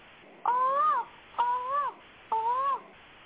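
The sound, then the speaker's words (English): A crow cawing three times, evenly spaced. Each caw is a harsh, nasal call that arches slightly in pitch over a soft steady background. “That's the crow in the background, baby. That's the crow.”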